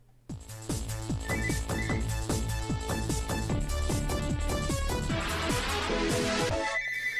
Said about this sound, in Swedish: Nej, det är min telefon som ringer.